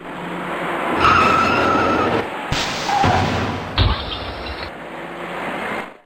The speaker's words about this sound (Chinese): 行驶在前面的车辆已经稳稳地减慢了行驶速度，可从后方开上来的几辆车却因为采取措施不及，接二连三地追撞在一起。